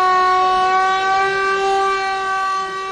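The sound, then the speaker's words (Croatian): A general-danger air-raid siren sounds in Mostar on the anniversary of the Old Bridge's destruction. It is a loud, steady harmonic wail that holds a nearly constant pitch throughout, with no voices. “Jezivi zvuk sirene za opštu opasnost i ove godine je na godišnicu rušenja starog mosta mostarsku, ali i širu javnost, podsjetio na dan”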